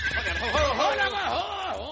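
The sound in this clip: A horse neighs during a chase in a western: a loud, wavering whinny that rises and falls in pitch over a low rumble.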